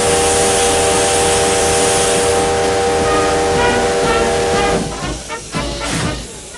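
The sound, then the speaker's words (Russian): A steam train gains speed as it pulls away from a station platform, its loud continuous hiss of steam joined by a sustained whistle-like tone, then breaking into rhythmic chuffs and clanks that soften toward the end. “Поезд набирает ход. Солдаты машут из вагонов провожающим на перроне.”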